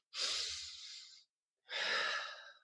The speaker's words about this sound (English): So okay. Let's take a deep breath in and out.